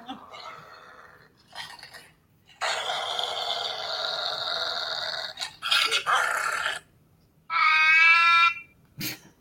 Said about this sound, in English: And what was that? It's a cat. Oh, that was a cat. I wasn't sure if that was a baby or what the hell was.